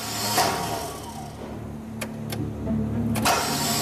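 A car engine cranks but does not start because it is out of fuel, late at night. A steady whirring drone continues throughout, with a few sharp clicks partway through.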